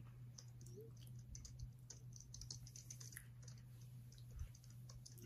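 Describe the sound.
Rapid typing on a computer keyboard: many quick, uneven key clicks over a steady low hum, with no voices.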